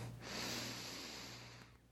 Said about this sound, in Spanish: Respira profundo.